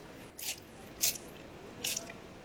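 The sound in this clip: Biting into fried food that has been dipped in hot soup: three faint, separate bites, each a soft, wet crunch with a squishy edge, spaced apart with quiet between.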